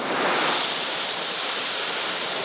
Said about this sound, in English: it will start to do a backwash, which is just send water backward to send these solids back into the plant. Okay. Yeah. There it is.